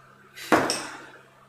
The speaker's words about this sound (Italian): Intanto chiudo la finestra.